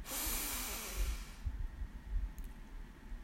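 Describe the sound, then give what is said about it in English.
A single deep inhaled breath taken during a guided breathing exercise: a soft, airy rush of air that lasts about a second and a half, then drops away to near quiet. “And let's take a deep breath in.”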